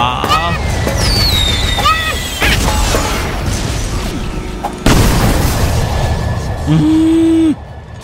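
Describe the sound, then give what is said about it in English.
Bombs exploding in a few loud, heavy booms, mixed with whistling and chirping sounds and a sustained tone near the end. “Da kommen schon wieder Bomben, genau in dem Moment, wo ich...”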